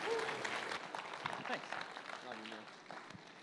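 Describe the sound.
Audience applause at a church service welcoming a pastor to preach. The clapping is quiet and dense, strongest at the start and then thinning out, with voices mixed into it.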